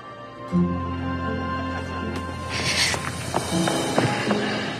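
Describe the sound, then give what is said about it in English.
Footsteps of a woman hurrying away, a few quick, faint steps over a steady tonal background, growing a little busier toward the end. “She looks to Michael's father, then turns and hurries away.”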